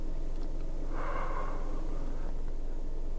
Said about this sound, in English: Just inhale really quickly. So exhale.